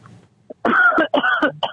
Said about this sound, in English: Giving a nice dry cough.